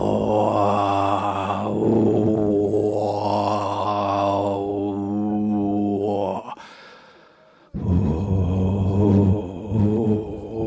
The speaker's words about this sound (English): We should learn to groan.